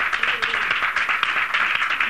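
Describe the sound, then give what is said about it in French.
A studio audience applauds a contestant during a morning game show with even, dense clapping from many hands. It holds at a steady level for about two seconds. “on va applaudir Sonia qui a passé 2100 francs qui est en train de faire un carton ce matin”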